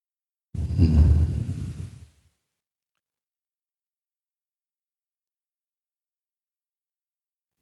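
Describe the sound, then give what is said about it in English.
A deep breath in, one breathy rush of air about a second and a half long, followed by several seconds of silence. “breath in again, nice and deep.”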